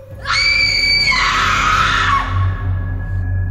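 A woman's terrified scream in a horror drama, one long, piercing, high-pitched cry lasting about two seconds. Its pitch drops partway through before it fades, leaving a low background hum.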